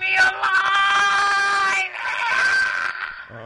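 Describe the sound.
A man yelling loudly, two long, drawn-out screaming cries with a brief break between them, strained and high.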